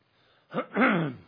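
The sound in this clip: A throat being cleared by a presenter at a talk: two rough, fairly loud bursts, a short one followed by a longer rumbling one, with no talk around them.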